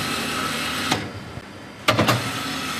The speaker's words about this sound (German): Auf dem Band einer Maschine läuft eine große Fläche Teig. Diese wird unter eine Guillotine geschoben und dort geschnitten.